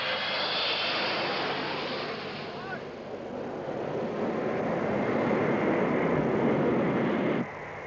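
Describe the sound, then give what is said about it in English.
Jet roar of an Air France Concorde supersonic airliner making the first commercial supersonic landing at Kennedy Airport. A dense, steady rumble swells and holds, then drops off abruptly near the end. “Europe was suddenly 4 hours closer to New York as Air France made the first historic landing of a supersonic commercial flight at Kennedy Airport.”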